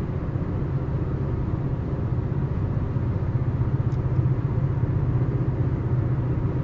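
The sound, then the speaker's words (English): A car rumbles along on a long road trip, giving a steady, low, continuous drone of engine and road noise with no breaks or changes. “I'm driving a 6.5 hours round trip today. I'm on my way home from a gig.”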